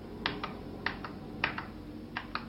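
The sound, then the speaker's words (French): Keys pressed on a terminal keyboard, soft, faint clicks falling in quick pairs, four pairs in succession with short pauses between them, and no talk. “Je tape deux fois sur la touche suite de façon à pouvoir remplir la rubrique localité, Brest.”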